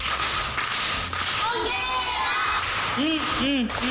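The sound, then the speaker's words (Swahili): An audience claps and cheers for a child who solved a riddle at a primary school: dense, steady clapping throughout, with children's shouts breaking through near the end. “Jibu lake ni mua. Mua amepata amekosa? Amepata. Makofi kwa Mwendwa.”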